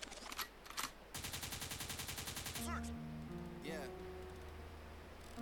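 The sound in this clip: A gunshot sound effect: a couple of sharp cracks, then a loud, rapid burst of machine-gun-style fire lasting about a second and a half, followed by sustained electronic tones.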